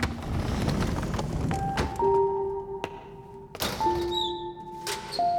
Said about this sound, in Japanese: ロッカーを開けている。